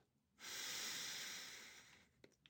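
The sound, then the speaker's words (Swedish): A single deep breath in during a guided breathing exercise with the tongue pressed to the palate: one long, steady airy inhale that swells quickly and then slowly tapers, followed by a couple of faint clicks. “Så ta ett djupt andetag in så kör vi nu en minut.”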